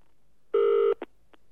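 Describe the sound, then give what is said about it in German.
Telephone dialing tones: one longer steady beep followed by two short, quieter beeps, alone against silence. “Ratlos verharrte er eine Weile, dann griff er zum Telefon.”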